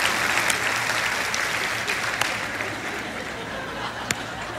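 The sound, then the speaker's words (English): Partial, scattered clapping from an audience, a steady patter that thins slightly over time, with a few sharper, louder individual claps standing out. “is that a partial clap?”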